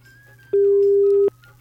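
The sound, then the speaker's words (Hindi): Phone line tone after a telephone call cuts off: a single loud, steady, mid-pitched beep lasting under a second, set over a faint low hum on the line. “लगता है इनकी phone call जो है वो cut चुकी है।”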